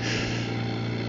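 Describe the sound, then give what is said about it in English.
Steady hum and hiss of a home oxygen machine helping a patient recovering from COVID breathe; an even, continuous drone with a low tonal hum underneath, unchanging throughout, with no talk. “but he's still using an oxygen machine to help him breathe.”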